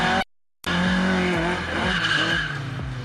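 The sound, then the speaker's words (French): Rear-wheel-drive Opel Manta oversteering with its rear tyres skidding: a loud engine drone with shifting tones and tyre squeal, broken near the start by a brief cut to silence. “Ce qui est très sympa avec cet Opel Manta, c'est la maniabilité, son côté très survireur. C'est normal, on a quand même toute la puissance aux roues arrière.”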